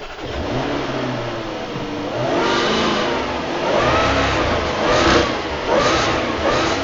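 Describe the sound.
A low-slung car's powerful engine revs hard after starting, with several rising and falling swells of engine roar growing louder toward the end, with no talk.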